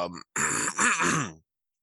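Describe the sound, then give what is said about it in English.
A voice imitates a throaty groan, the kind let out while choking on a drink: a short strained burst, a brief pause, then a longer rough groan that fades into silence. “a throat kind of groan type thing, and then it caused me to end up, like, choking.”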